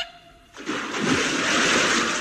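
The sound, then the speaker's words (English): Something falls into water with a sudden splash, followed by loud, sustained rushing and churning water with no voices. “What has happened to him? It's falling into water.”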